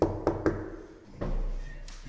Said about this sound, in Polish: symbolicznie zapukamy w drzwi.